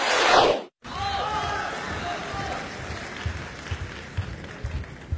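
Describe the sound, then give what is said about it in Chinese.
Audience applause at a crosstalk comedy show in Beijing: a dense burst of clapping that cuts off abruptly, then a softer, steady wash of applause that carries on to the end. “感谢您的掌声鼓励。”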